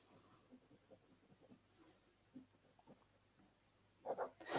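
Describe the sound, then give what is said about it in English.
Faint pen-on-paper scratching as notes are handwritten during a live mediumship reading: a string of soft, short strokes, followed by a few louder rustling scrapes at the end. “I'm just writing down a couple of things, just getting a couple of impressions.”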